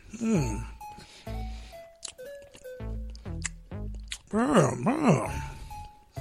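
Someone eats dark chocolate coconut hummus, with soft wet chewing and mouth sounds mixed among several voiced hums of enjoyment whose pitch glides up and down.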